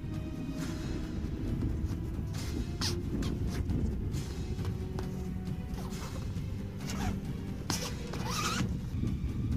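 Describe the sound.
Zippers pulled repeatedly while a tent is packed up in a hurry as the wind picks up, with many quick rasping zips over a continuous low rumble.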